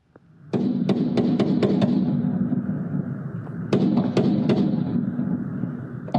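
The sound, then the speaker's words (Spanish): Assault rifle gunfire aimed at vehicles on a busy road: sharp cracks in two volleys, about six quick shots, a pause, then a few more, all over a steady noise bed. “El agresor abrió fuego contra vehículos en una vía muy transitada, disparando entre 50 y 60 rondas.”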